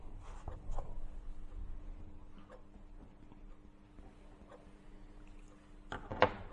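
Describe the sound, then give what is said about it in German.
Faint scratching of a note being written during a lecture: soft, sparse strokes over a quiet background, with a slightly sharper knock near the end. “Ich mache mal eine Notiz hier.”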